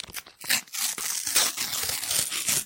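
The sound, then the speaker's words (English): Sticker packets being torn open, giving a dense run of crinkling, ripping foil sounds in many quick bursts, fairly faint and with no talk. “We're going to open together and we're going to compare kits. Yes. See whose kits we like best, okay? Tear now.”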